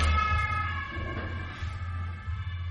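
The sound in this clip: An ambulance siren sounds as a steady, faint tonal wail with stacked harmonics above a low, continuous rumble, with no talk over it.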